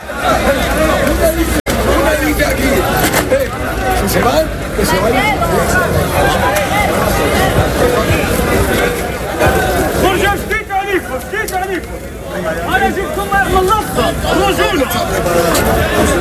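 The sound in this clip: Crowd tumult at a protest with riot police firing balls into the air and using batons: a loud, continuous, chaotic mass of shouting voices and babble with rough noise throughout.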